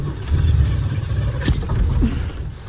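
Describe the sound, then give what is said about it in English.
A car engine revs as the gas pedal is pumped, a low rumble that swells, eases and swells again in uneven surges. “So you reach for the gas pedal and pump it. Keep pumping.”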